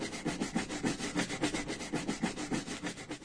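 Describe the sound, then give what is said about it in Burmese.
Rhythmic scrubbing of stuck stains or dirt, a rough rubbing stroke repeated many times in a quick, even back-and-forth pattern, fairly loud and with no talking. “ဂိုရှိဂိုရှိတိုက်ချွတ်နေတဲ့အတန်တင်နေ မှန်သွားပြီမကြီးတခုခုမှကတ်နေတဲ့အစွန်အထင်ဒါမှမဟုတ်အညစ်အကြေးတွေကိုတိုက်ချွတ်တဲ့အခါထွက်လာတဲ့အတန်”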